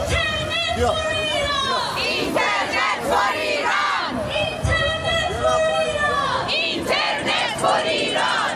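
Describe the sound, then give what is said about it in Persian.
A crowd of Iranian protesters chanting slogans against the Islamic Republic at a weekly Stockholm rally and march: many voices shouting in loud, continuous rhythmic unison. “برای 20مین هفته متوالی ایرانیان ساکن استکهلم با برگزاری تجمع و راهپیمایی اعتراضی علیه جمهوری اسلامی و سرکوب معترضان در ایران شعار دادند.”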